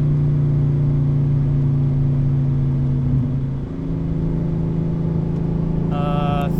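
A car engine coasting off the throttle in fourth gear after about 4,100 rpm, a steady mid-pitched drone that holds evenly, dips briefly partway through, then settles back into a constant hum.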